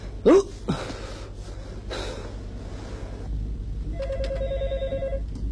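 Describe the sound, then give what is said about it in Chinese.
A telephone rings with a bright, trilling electronic tone that starts late and runs for about a second, after a few breathy sounds and soft thumps. “小杨电话。 哎，来了。喂，哪位啊？”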